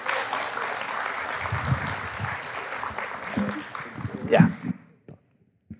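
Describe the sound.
Audience applause welcomes two hosts onto the stage at a Sunday gathering: steady, dense clapping holds for several seconds with voices mixed in, then fades out quickly near the end.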